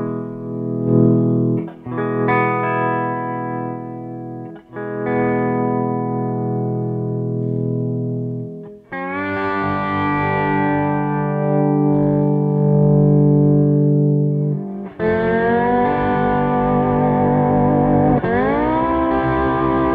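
Distorted electric guitar through a Wampler Euphoria pedal, dialled in for a saggy, Dumble-style amp tone, rings out in several long sustained chords with brief breaks between them, thick and loud with no talk.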